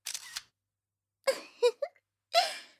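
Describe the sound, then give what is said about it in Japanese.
A camera shutter snaps once as a photo is taken, a short crisp click followed after a pause by a few brief, soft vocal sounds. “申し訳ありませんけど、写真に撮らせてもらいました。”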